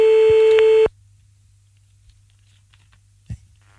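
A single steady telephone tone from an outgoing call sounds for about a second, loud and buzzing, then cuts off into near silence broken only by a few faint clicks.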